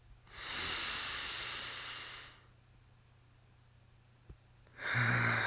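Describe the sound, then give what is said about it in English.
A slow, deep breath makes a long, airy hiss for about two seconds. After a quiet pause, another big breath begins. No voice is heard. “Big, slow breaths.”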